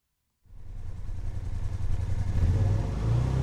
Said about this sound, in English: The Kawasaki Terex 4 side-by-side all-terrain vehicle has plenty of power and can carry its operator and three passengers up steep hills and cruise along trails